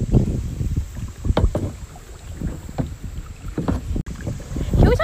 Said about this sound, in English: Seriously, now I'm just, like, going backwards again. Yeah, this wind is just not it.